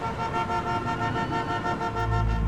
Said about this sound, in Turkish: Araçlar sıkıştı, korna sesleri arttı.